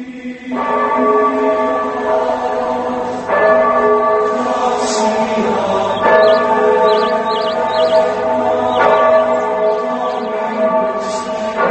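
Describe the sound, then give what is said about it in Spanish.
Church bells at a monastery, rung by a monk, sound a few loud strikes whose long, overlapping tones sustain and blend, with brighter high chimes joining near the middle. “Toca las campanas el hermano Samuel.”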